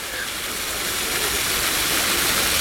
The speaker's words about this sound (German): wenn ich euch mit an die frische Luft nehme, dass man irgendwo einen Wasserfall plätschern hört.